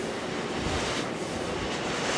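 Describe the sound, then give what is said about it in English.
Enormous wind turbine blades rotating above a new wind farm on a breezy day give a steady, broad rushing roar with wind buffeting mixed in, fairly loud and even throughout, with no voices. “I'm standing with Jamie Orrick as enormous blades rotate above us on a breezy day.”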